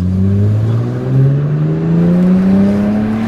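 A race car at full throttle on a hill climb course at Hemberg. The loud, steady engine note climbs gradually in pitch through the whole stretch with no break and no voices.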